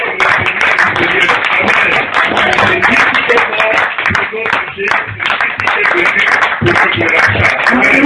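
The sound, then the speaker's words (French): A church audience applauds: dense, sustained clapping runs loud and steady through the whole stretch, with voices mixed into the noise. “Le Père de Dieu nous donne une grande acclamation au Seigneur Jésus-Christ.”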